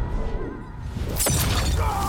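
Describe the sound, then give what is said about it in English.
A fighting video game effect of Scorpion's fiery hot chain blade landing on Sub-Zero's head: a sizzling rush breaks into a sharp, bright shattering crash partway through, then a dense noisy burst. “And Scorpion's fiery chain blade is stuck in Sub-Zero still while he's flipping over him. Oh, so is he cut in half? And that hot chain is going to land on Sub-Zero's head. Let's hear that.”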